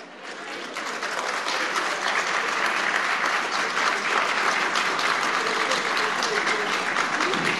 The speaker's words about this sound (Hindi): अरे ताली सहमति में बजा रहे हैं या नहीं?